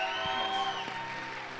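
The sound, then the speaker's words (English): Applause from a church audience welcoming a speaker to the stage, a steady, fairly faint patter of claps under sustained held tones. “So will you welcome Pat to the stage and give him a warm ovation?”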